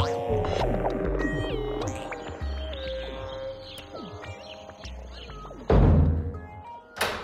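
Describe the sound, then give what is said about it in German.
A door being locked in a drama scene: sustained humming tones fill the first part, then a loud clunk and rattle of the lock, followed by a second short knock at the very end. “Warum sperrst du denn die Tür ab”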